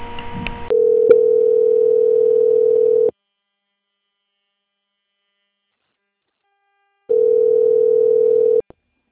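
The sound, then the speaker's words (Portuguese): Telephone line tone while a caller is transferred to a bank's quality-control department: a steady, buzzy, mid-pitched tone held for a couple of seconds, then silence, then the same tone again briefly before it stops. “vou pedir que o senhor aguarde um momento na linha, tá? Eu vou transferir o senhor para o setor de qualidade. O senhor não desliga a ligação, tá bom?”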